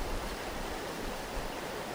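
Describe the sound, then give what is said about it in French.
Rushing water of the Kanyosha river flowing past a gravel and stone extraction site near houses: a fairly faint, even, hiss-like wash that runs without a break and with no voices. “Nous sommes à la rivière Kanyosha, tout près des quartiers Kamesa Busoro et Moussama Kinanira”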